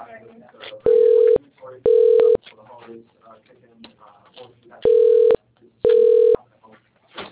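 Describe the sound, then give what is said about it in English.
Telephone keypad tones dialing an extension, four short steady beeps falling in two pairs, set between stretches of talk from a voice. “If you know your party's extension, you may dial it at any time.”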